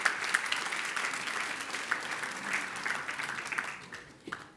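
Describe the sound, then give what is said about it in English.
A church audience applauds a speaker invited forward to share his story. The clapping is warm and continuous, with a few sharper individual claps, then thins and fades near the end. “Church, let's give him a warm welcome.”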